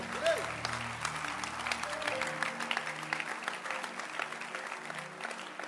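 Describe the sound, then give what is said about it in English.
A church audience claps their hands as they are seated, a continuous crackle of many claps running throughout alongside sustained musical tones, moderately loud and fairly even. “You may please be seated with a hand clap unto Jesus.”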